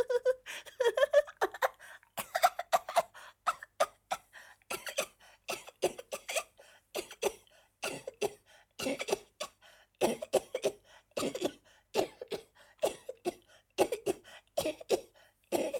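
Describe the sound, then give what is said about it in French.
Woman's coughing fit, many harsh coughs coming in irregular clusters with brief pauses and some throat clearing, alone without talk. “Elle éclata de rire, mais son rire s'acheva dans une quinte de toux qui lui fit perdre la respiration.”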